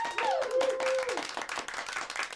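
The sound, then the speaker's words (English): Dense, steady audience applause in a talk-show studio, with a brief whooping tone rising over the clapping early on before the crowd noise continues at full strength. “Come on, you know I love that applause. Oh, God, I absolutely love it.”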